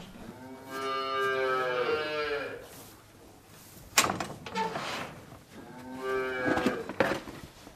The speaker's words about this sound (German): So, es ist jetzt 6 Uhr am Abend und mein Vater ist im Stall, um sich dort um die Tiere zu kümmern.